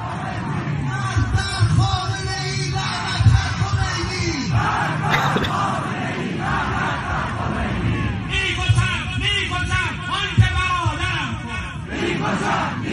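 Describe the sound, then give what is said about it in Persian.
A large crowd in Semirom chants slogans together, with a megaphone-led call, rising and falling waves of many shouting voices, loud and rhythmic, with bursts of yelling and overlapping voices throughout. “سمیروم رو ببینیم با هم دیگه که اول چه جمعیت بزرگی و شعار دادن با بلنگو.”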